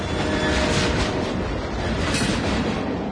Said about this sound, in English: Yep, that's the sound of a CSX train doing its part to move the economy forward.